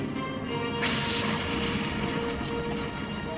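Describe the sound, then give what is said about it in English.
Weapons fire in a sci-fi audio drama: a short, harsh burst of blasting noise cuts in over a steady low rumbling background, then fades back into the hum. “Weapons fire. I can't pinpoint the source.”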